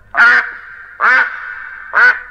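Three loud nasal quacks from a duck, evenly spaced about a second apart, each short and raspy with a faint tail between them and nothing else around.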